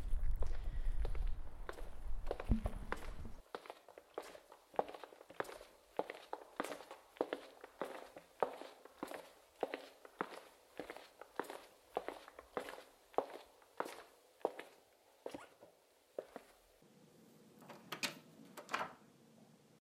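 Footsteps walk into a small office on Nøtterøy for an interview: a long, steady run of many even, soft treads that continue without pause.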